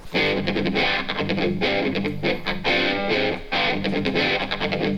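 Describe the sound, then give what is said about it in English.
Electric guitar run through a 4MS modular setup, where envelopes from a percussion interface drive a shaped dual envelope, VCA and low-pass gate for a wah-wah tone. Distorted, rhythmically pulsing chords sweep and surge throughout, loud and steady. “So that kind of wah-wah pedal sound is coming from the envelopes generated by the percussion interface”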